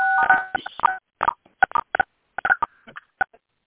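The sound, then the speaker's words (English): Telephone keypad tones as callers on a conference call press star six to mute: a quick, irregular run of many short electronic beeps on their own. “I'm going to ask everyone on the call to please mute themselves by pressing star six.”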